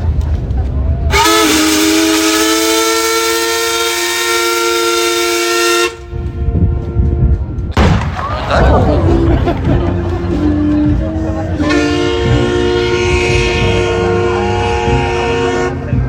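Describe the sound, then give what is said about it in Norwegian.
Steam whistle of the paddle steamer Skibladner sounding a salute on its 170th anniversary: two long, loud, steady harmonic blasts separated by a noisy gap with voices. “Vi vil straks fyre av en salut til ære for Skiblander som fyller 170 år I dag.”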